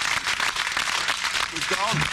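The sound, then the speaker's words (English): Cheering from the British delegation in parliament makes a loud, continuous din of overlapping voices and crowd noise that holds steady without a break. “The whole delegation from Britain is cheering on Nigel. They have all little British flags are waving them.”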